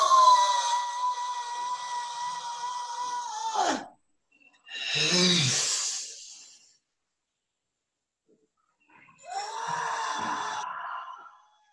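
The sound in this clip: A person exhales deeply during a guided breathing exercise: long, loud, breathy sighs, partly voiced and drawn out, in three stretches separated by near silence.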